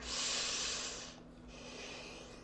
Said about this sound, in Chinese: 把眼睛闭上，深呼吸。